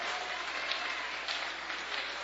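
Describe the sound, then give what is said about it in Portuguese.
A church audience claps their hands for Jesus, a faint but continuous patter of many hands blending into a dense, even texture. “E a igreja bate palma para Jesus. E a igreja bate palma para Jesus.”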